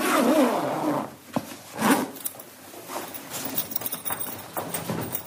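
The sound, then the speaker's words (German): A zipper rasps shut on a body bag as an undertaker closes it in the basement of the JVA Bielefeld-Brackwede prison: a few short, scraping zip strokes with uneven pauses between them. “verschließt er noch einen Leichensack”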